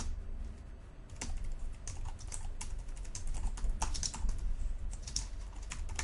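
Computer keyboard typing while XAML code is written by hand in an editor, a quick run of many light, faint key clicks with no talk.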